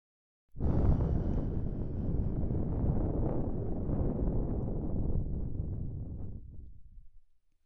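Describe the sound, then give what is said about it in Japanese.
Breath blown close into the ear makes a long, steady, airy whoosh. It starts abruptly, holds for about seven seconds, then thins and fades away. “耳元でふーっと息を吹きかけて”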